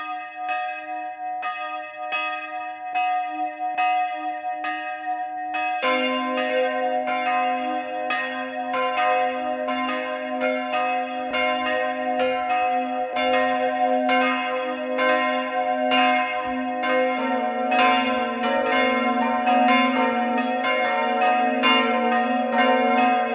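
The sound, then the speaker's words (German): Church bells of a hilltop parish church in Carinthia, Austria, ringing at noon. A single bell tolls steady strokes at first, then more bells join in a loud, full, continuous peal of many overlapping strokes. “Es ist 12 Uhr. Sie hören die Glocken der Pfarrkirche St. Georgen am Weinberg in Kärnten.”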